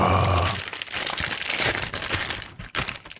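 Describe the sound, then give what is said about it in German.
Loud crinkling and rustling of plastic as a large, colourful, A4-sized green food package is opened, crackling steadily throughout and ending in a few sharper crunches. “Hier so eine große Packung, DIN A4 groß. Sehr bunt, sehr grün. Ein Value Pack. Da ist Wert drin. Soll ich es mal aufmachen?”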